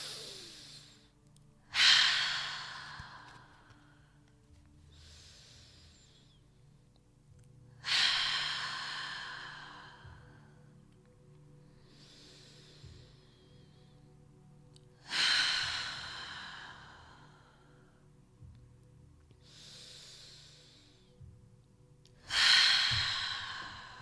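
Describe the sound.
Slow, deep breaths taken during a guided breathing exercise: four full, airy breaths at even intervals, each swelling then trailing off, with fainter breaths between them and no talking.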